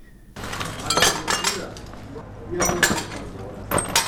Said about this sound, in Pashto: د کوټې یوې ګوښې ته د ماتو ښیښو ټوټې راټولوي.